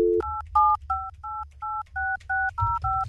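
Telephone keypad being dialed: a brief low tone, then a quick, even run of about nine touch-tone beeps, each a clean two-note chirp, with a faint low hum underneath.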